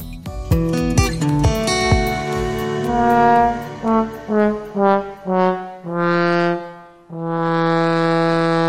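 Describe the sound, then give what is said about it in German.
A trombone from the Gürzenich Orchestra of Cologne plays a run of brassy notes: quick attacks at first, then a string of short separate tones, ending on a long held note. “Das, was ihr da gehört habt, das war eine Posaune. Vorgespielt vom Gürzenich-Orchester in Köln.”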